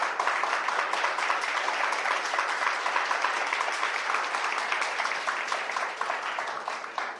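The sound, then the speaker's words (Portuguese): Sustained applause in a hall during a political speech in Brazil. The clapping is dense and steady for about seven seconds and eases slightly toward the end. “Agradeço as palmas, inclusive, de quem não pensa como eu”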